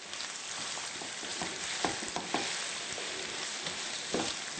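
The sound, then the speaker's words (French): Tofu and onion frying in oil in a pan: a steady, loud sizzle with a few sharp clatters from stirring rising out of it, and no voices. “Alors, l'important ici, c'est de faire suer les légumes, faire suer l'oignon et de faire rôtir graduellement le tofu.”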